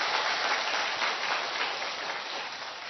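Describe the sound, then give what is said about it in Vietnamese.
Dense, steady applause from a church audience after a call for a big round of clapping: a sustained hiss of many hands at even loudness throughout, with no voices. “Đúng thì một tràng hoa tay thật lớn lên thưa anh chị em.”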